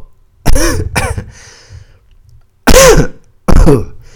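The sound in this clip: A dry throat being cleared in four harsh bursts: two short rasps close together, a pause, then two louder, gravelly clearings, with no other sound between them.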